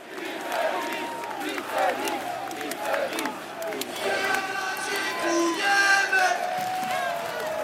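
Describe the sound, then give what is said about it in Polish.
Football fans roar and chant as an open red bus carrying the Jagiellonia Białystok players drives onto NZS square in Białystok; dense crowd noise with shouting voices stays loud and continuous, swelling toward the end. “na plac NZS-u Białystoku wjeżdża czerwony autokar z KIS, z piłkarzami Jagiellonii Białystok. Posłuchajmy, co tu się dzieje.”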